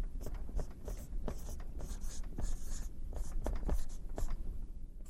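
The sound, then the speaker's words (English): Handwriting scratches along steadily as someone writes by hand, a faint stream of many quick, dry strokes with short taps and pauses between words. “here, I'll just write it here.”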